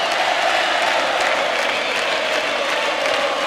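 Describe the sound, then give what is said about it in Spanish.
An audience gives a comedian an ovation, with thick, sustained applause from many hands that stays loud and level throughout. “El público lo recibió y lo despide con estos aplausos y esta ovación.”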